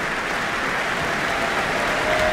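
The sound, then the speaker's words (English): A concert audience applauds after an orchestral performance with a dense, continuous wash of clapping at a steady level that swells slightly near the end. “the audience tonight is delighted by what they have heard.”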